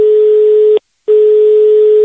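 Telephone call signal as a neighbour rings: a steady, loud electronic tone, broken once by a short silent gap before it resumes at the same pitch.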